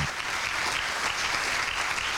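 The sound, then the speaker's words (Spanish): Audience applause at an international mental health festival: a thick, even wash of many hands clapping that holds steady at a moderate level for the whole stretch. “Yo quisiera que nuevamente le brindemos un aplauso porque vale la pena, vale la pena.”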